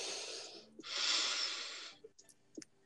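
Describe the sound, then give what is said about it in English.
People breathing slowly in and out during a guided tantra breathing practice: two long, airy breaths with a brief gap between them, followed by a few faint clicks and rustles. “I want to hear you guys actually breathing. So exhale. Okay. Focus. And inhale.”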